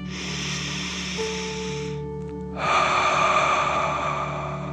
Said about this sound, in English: You feel safe and strong as you take a deep dragon breath in and out.